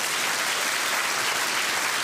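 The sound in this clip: An audience claps steadily to welcome a guest speaker, a chemistry professor, at a faith-and-science talk. The dense, even clapping stays level from start to finish.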